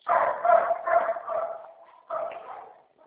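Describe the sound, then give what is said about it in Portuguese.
Dogs bark over a narrow, tinny telephone line in a few loud, tonal bursts that trail off into a whine-like tone, with a final bark after a short pause. “É que tem os cachorros latindo, eu não estou conseguindo entender direito você.”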